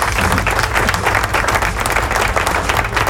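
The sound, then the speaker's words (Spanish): Applause from a crowd: dense, continuous clapping that stays loud and even for the whole stretch, with no pauses. “Así que aplausos.”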